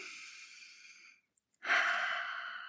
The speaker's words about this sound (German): Dann atmest du mit mir noch dreimal tief ein durch die Nase und mit der Ausatmung lässt du alle negative Energie los.